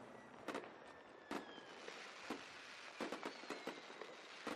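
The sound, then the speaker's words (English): Chinese-made fireworks exploding: many sharp, faint bangs and pops at irregular intervals, with a soft crackle and hiss between the bursts. “these fireworks are making me really feel patriotic, even though they're Chinese.”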